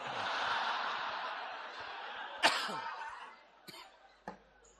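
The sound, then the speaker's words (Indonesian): Coughing during a religious lecture: one sharp, prominent cough breaks through soft background noise, followed by two fainter, shorter coughs. “Batuk. Ya Allah. Jarang saya kajian batuk begini.”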